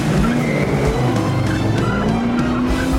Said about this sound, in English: He speeds through the rows of nondescript hybrids and leaves MI7 headquarters, swerving to avoid oncoming traffic.